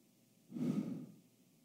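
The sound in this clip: A soft, breathy exhale during a church healing service. The faint airy whoosh swells and fades over about half a second and is heard alone.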